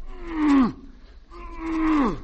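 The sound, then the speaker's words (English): A cow moos twice while being loaded into a truck. Each long, low moo holds a steady pitch, then drops sharply at the end, with a short gap between the two calls. “I'll load her into the truck. The truck? Ain't we using the horse and buggy? No, you wouldn't like the buggy anymore. Why not? Too buggy. Come on, cow, now in you go.”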